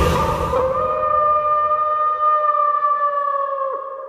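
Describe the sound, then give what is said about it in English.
A person imitating a howl holds one long, steady, siren-like wail for about four seconds. It stays loud and alone and bends slightly near the end. “All right, baby, I'm howling,”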